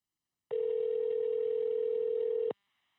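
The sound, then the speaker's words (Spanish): A single steady telephone tone sounds while a call is being placed: one even, mid-pitched tone holding for about two seconds, then silence, with nothing else around it. “Déjame llamarla rápido”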